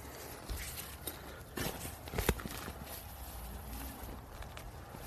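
A small mare, sired by a quarter horse, walks under a rider: faint, irregular hoof thuds over steady low wind noise, with a few slightly louder knocks.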